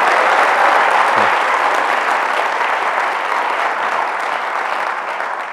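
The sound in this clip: Audience applause welcoming a speaker onto the stage: a dense, loud wash of many hands clapping together, sustained evenly throughout and easing slightly toward the end.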